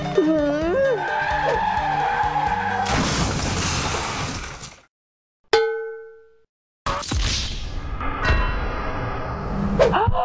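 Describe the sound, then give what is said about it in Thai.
A car skids in a long tire screech and then crashes with shattering and clanging metal on a busy road. Voices are heard at the start, and a bright ding rings out during a brief silence. “เมื่อกี้รถชนกันหรอขับรถประสาทอะไรกันเนี่ย”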